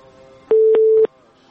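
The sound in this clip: A telephone call is dialed, giving a single steady mid-pitched tone that lasts about half a second, with three clicks inside it, against a quiet background.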